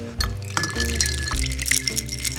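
A gin cocktail made with Aviation American Gin is stirred in a glass, giving light clinks and liquid swishes over a steady tonal background.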